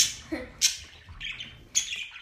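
Short high chirps and squawks from a pet bird in a cage, a few brief calls scattered over a quiet background.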